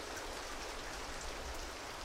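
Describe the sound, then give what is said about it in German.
Steady rain makes a dense, even hiss of countless drops with no pauses. It is faint and continuous, with no voices. “Es regnet.”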